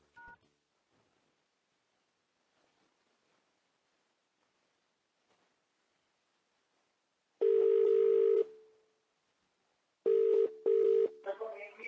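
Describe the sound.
Telephone keypad tones sound while someone dials into a conference call. A few loud, steady electronic beeps arrive in short bursts after a long quiet stretch: one longer tone, then a quick cluster of several more.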